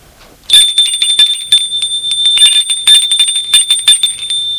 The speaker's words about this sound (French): L'on vient de sonner pour le dîner.